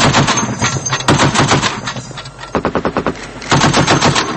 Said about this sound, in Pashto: دا ډزې په هرو څو دقیقو کې د بشکک له مختلفو سیمو تر غوږ کېدې.